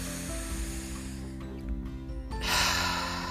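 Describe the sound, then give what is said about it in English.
A deep breath drawn in during a guided meditation, heard as a soft, airy rush of inhaled air that swells near the end over quiet, sustained background music. “Take a deep breath in”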